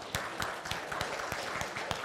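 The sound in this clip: A small group applauds a speaker. Faint, scattered hand claps land at a loose, fairly even rhythm.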